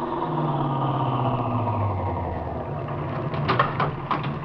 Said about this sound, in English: This is probably him driving up now.